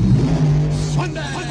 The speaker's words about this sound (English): Alan said, you know, there are these great radio spots for drag racing in New Jersey. Sunday on Raceway Park.